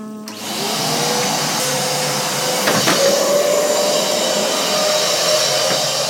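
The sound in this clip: A vacuum cleaner sucks up crumbs of an organic rice cake from the floor. Its loud, steady roaring whine holds for several seconds, with a brief clatter partway through as debris is drawn in.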